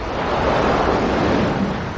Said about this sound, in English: At the ocean, large waves crash.